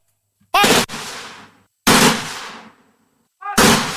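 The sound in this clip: Rifle volleys fired as an honour salute for fallen heroes: three loud, sharp cracks spaced more than a second apart, each with a rough tail that fades slowly before the next.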